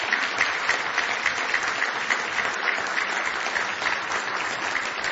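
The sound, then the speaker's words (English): A church audience claps steadily and loudly for a newly arrived guest, the mother of a member who has moved from Louisville, Kentucky. The applause is a dense, even patter that runs unbroken throughout. “Give her a nice hand this morning.”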